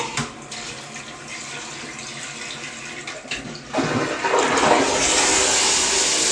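A toilet flushes, its loud rush of water surging in about halfway through and roaring steadily to the end after a quieter stretch of hiss.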